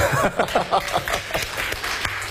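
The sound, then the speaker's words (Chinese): Sparse, scattered applause from an audience at a talk event: a few uneven hand claps of moderate loudness, with gaps between them. “谢谢你们稀稀拉拉的掌声”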